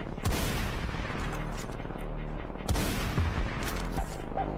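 Rifle gunfire from a designated marksman rifle in a military shooter video game: two sharp, loud shots burst out a couple of seconds apart over steady background noise.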